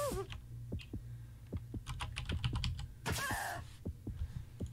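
Rapid typing on a device keyboard as an answer is entered during a party quiz game: many irregular, crisp key clicks and some duller taps run steadily with no voices over them.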